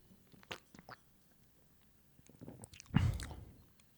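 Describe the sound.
Crunching bites of Swedish knäckebröd crispbread eaten with chocolate, a few sharp, quiet crunches followed by a louder, longer crunch and chewing near the end.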